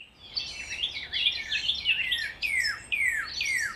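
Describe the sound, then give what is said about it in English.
A bird sings a string of quick, high whistled phrases, many sweeping downward in pitch, repeated in short bursts with brief gaps. The song is fairly faint and heard alone. “engage with the bird that is singing at this moment?”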